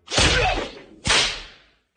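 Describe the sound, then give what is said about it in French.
Whip cracks: two loud, sharp lashes about a second apart, each snapping in suddenly and then trailing off in a fading swish, with a third crack just beginning at the very end. “on va t'infliger des coups de fouet par milliers.”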